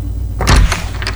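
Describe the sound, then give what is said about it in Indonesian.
An unlocked door at home being opened: a short, heavy thud with a low rumble and rattle, then lighter scraping noise that fades away. “buka saja pintunya, tidak dikunci kok”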